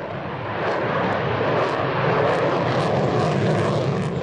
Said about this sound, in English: The Sukhoi 30, which is an upgraded version of a veteran Soviet fighter bomber, was recently shown off at Moscow's annual air show.